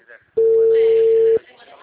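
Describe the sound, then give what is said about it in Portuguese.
One loud, steady ringback tone of an outgoing phone call holds at a single pitch for about a second, with talk just before and after it. “Tá, eu tô ligando, tá chamando”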